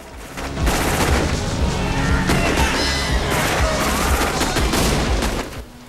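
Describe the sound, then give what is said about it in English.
Rapid automatic gunfire as vampire hunters spray bullets at fleeing vampires near a prison at sunrise: a loud, continuous burst of shots lasting several seconds before it fades out. “the vampire hunters spraying them with bullets as they go.”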